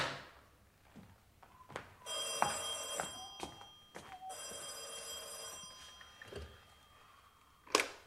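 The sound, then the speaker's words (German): An old-style telephone bell rings twice, two long bright trills separated by a short pause, amid faint clatter and a few dull thumps. “Ich habe einen Anruf für Captain O'Brien.”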